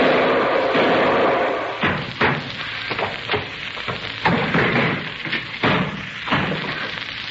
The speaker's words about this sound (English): If your shot did not, that fall down the stairs has broken his useless neck.